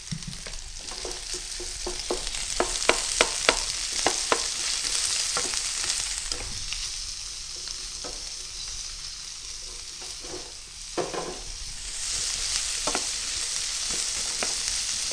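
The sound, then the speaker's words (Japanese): Sizzling oil as onion and green pepper are stir-fried in a pan over medium heat, with many quick clicking spatula strokes over a steady, bright frying hiss. “20秒ほど炒めたところで野菜、玉ねぎ、ピーマンを一度に加えて炒めます。”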